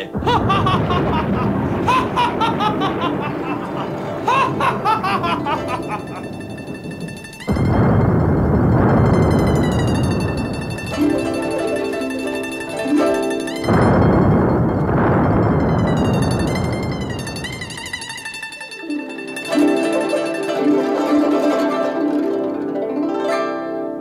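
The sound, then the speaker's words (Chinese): Cannon fired into the sky booms twice, each blast a broad, roaring burst that rumbles on for several seconds before fading, set against music. “向天放炮。听下雷声大，听下我炮声大”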